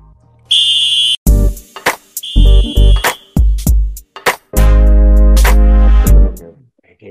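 A buzzer sounds to start the first half of a match: a harsh, steady electronic tone, then several short loud blasts and one long sustained blast. No one speaks.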